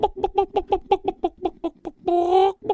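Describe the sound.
A person imitates a rooster: a rapid run of many short, clucking pulses, then a brief, loud, sustained harmonic crow, followed by one more cluck.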